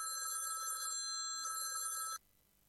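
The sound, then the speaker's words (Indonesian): A telephone rings as a call is being placed, giving two bright, trilling bursts separated by a short pause before cutting off abruptly. Faint, with no talk. “Oh, ingat aku. Mas Ali, tak telepon Mas Ali.”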